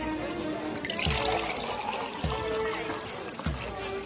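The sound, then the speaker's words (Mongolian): Water pours and splashes into six stone jars as they are filled, a continuous bubbling, trickling flow marked by a few stronger gushing bursts that come one after another. “6 чулуун савыг усаар бэлхтэл дүүргэлээ.”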